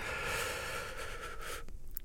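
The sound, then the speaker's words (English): A single deep breath drawn in: a long, airy, steady hiss of inhalation that lasts about a second and a half and then cuts off into near silence. “So let's breathe in the air. Here we go. One big breath in”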